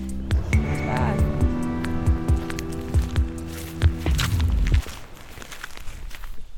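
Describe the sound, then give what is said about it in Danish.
Footsteps walking into a stable building, a series of evenly paced, dull steps over a low steady hum. The steps end partway through, leaving a quieter background. “går vi lige her ind igennem øh, staldbygningen.”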